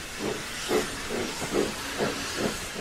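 A steam train pulling out of a small station, its rhythmic chuffs of escaping steam repeating about twice a second over a loud, continuous hiss.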